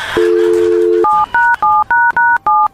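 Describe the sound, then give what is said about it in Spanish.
Telephone number dialed on a touch-tone keypad: a steady dial tone sounds first, then six short, bright keypad beeps follow in a quick, even rhythm. “vamos a marcar.”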